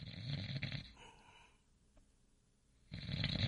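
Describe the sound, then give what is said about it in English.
A man snoring loudly: two rough, rasping snores separated by a quiet gap of near silence, the first one long and the second starting near the end. “That is an impressive snore to reach that far too.”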